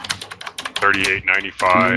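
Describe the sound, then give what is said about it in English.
Rapid typing on a computer keyboard during an online call: a quick run of sharp key clicks at the start, then a voice talking over continued clattering keystrokes. “I was asking if you can mute yourself. You hear your keyboard.”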